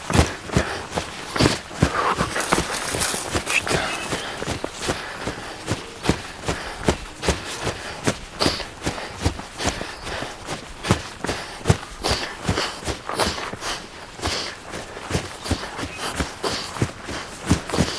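Footsteps of a person running: a long, steady series of many rapid, evenly paced thuds and scuffs that continues throughout, with no voices.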